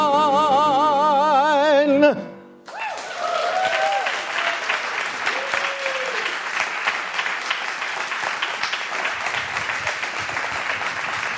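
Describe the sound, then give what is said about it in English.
An audience breaks into sustained applause right after a short passage of wavering tonal music cuts off. Dense, even clapping then continues at a steady level to the end, with no voices standing out. “And now keep that applause going”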